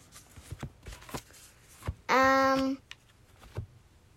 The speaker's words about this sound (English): Well, if you could have any here, we'll flip all these cards over.